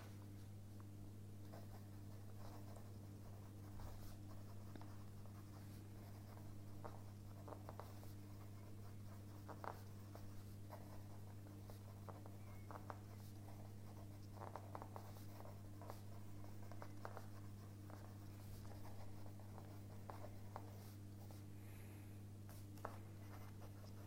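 A pen scratches across paper in many quick, faint strokes, soft and irregular, over a steady low hum with no talking.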